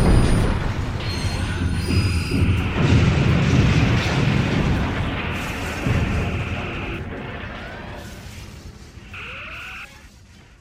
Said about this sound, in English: Return fire all batteries.